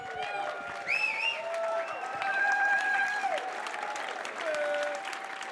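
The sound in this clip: A church audience rises and applauds to welcome a guest, sustained steady clapping with a few voices calling out above it.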